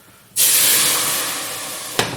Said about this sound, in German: Und dann kommt nämlich gleich dieser Liter Soße. Der kommt jetzt hier gleich dazu. Und schon Hitze.